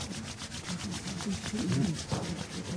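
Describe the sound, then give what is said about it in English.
Palms rub together briskly in a continuous, rhythmic swishing of many quick back-and-forth strokes that stays steady and moderately loud. “Rub your palms.”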